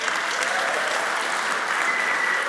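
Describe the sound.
An audience applauds to welcome a boy up to a platform during a sermon. The clapping is dense and steady, keeps an even loudness from start to finish, and has no voices over it.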